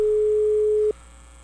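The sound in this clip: Ringback tone on a telephone line as a call goes unanswered: one steady, pure, low-pitched tone lasting just under a second, then cutting off into faint line hiss.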